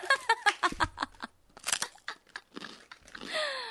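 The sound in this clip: Crunching of Japanese rice crackers (senbei) being bitten and chewed, a series of sharp, brittle crunches that are loud at first and then thin out.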